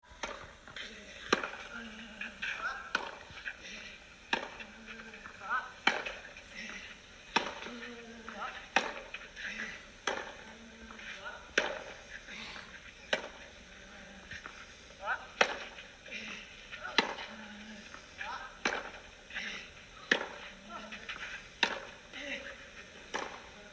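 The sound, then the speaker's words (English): Tennis ball strikes from a professional tournament rally on a clay court lasting over 30 shots: many sharp, crisp hits in a steady back-and-forth rhythm, roughly one per second, over a low steady background. “Here's one of their best rallies of the tournament that lasted over 30 shots. Take a listen to this clay court masterclass.”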